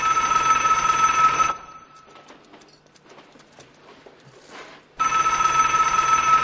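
A telephone rings on a desk in a dim office: a loud, steady burst of ringing, a quieter pause, then a second loud burst of ringing.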